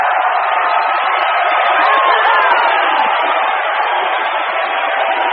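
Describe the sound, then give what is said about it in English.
Audience cheering and whooping at a high school winter talent show, a dense, loud, steady roar of voices that holds for the whole stretch with no pause. “Welcome to the North Shore High School Winter Talent Show. Let me hear you make some noise.”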